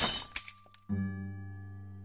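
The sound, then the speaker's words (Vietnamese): Glass shattering as an oil lamp is smashed: a sharp, bright crash with a few trailing clinks, then a steady low tone that continues alone. “nàng cầm lấy cái đèn dầu đặt trên kệ mà đập dở tan.”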